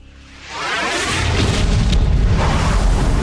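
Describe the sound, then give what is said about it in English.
Atomic bomb exploding over a city at night. A quiet start gives way to a deep boom that swells within half a second into a loud, sustained roaring rumble, heavy in the low end. “An atomic bomb strikes a city, sending up a huge mushroom cloud into the night sky.”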